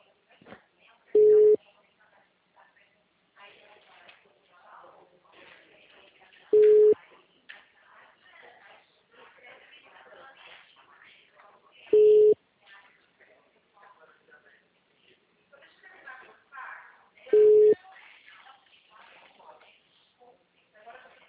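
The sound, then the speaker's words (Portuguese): A telephone busy signal sounds as four short, identical mid-pitched beeps spaced evenly several seconds apart, under a continuous recorded voice message. “Sua chamada está sendo encaminhada para a Caixa Postal e estará sujeita à cobrança após o sinal. O número está ocupado.”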